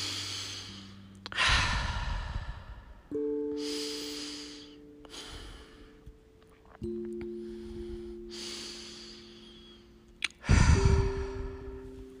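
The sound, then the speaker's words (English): Three deep cleansing breaths taken during a guided meditation, each a slow inhale followed by a long, sighing exhale, heard over soft, sustained musical tones. “Now let's take three nice cleansing breaths together.”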